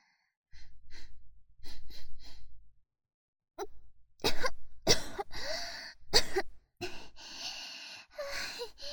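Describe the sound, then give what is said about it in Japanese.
Coughing and choking from someone overwhelmed by a strong smell: a few breathy, voiced gasps first, then several harsh, loud coughing bursts in quick succession, without words. “思わずむせちゃいました”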